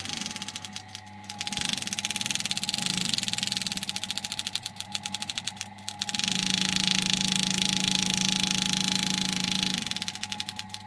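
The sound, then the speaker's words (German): A sewing machine stitches straw braid continuously into a hat shape, with a rapid mechanical chatter and whir in two long runs separated by a short pause, over a steady motor hum. “Da wird jetzt also das Strohband zusammengenäht, fortlaufend, zu einer Form, die nachher einen Hut ergibt.”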